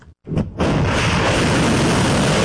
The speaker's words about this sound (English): Iran said these missiles were launched at a US base that, it said, had been used to attack Iranian territory.